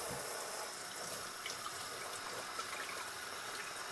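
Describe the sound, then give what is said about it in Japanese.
Cold tap water runs steadily at a sink while a water bottle is rinsed, a continuous bright hissing splash with small trickling variations and no talk throughout. “水筒の中を洗っていましたまた水筒もすすいでいきます”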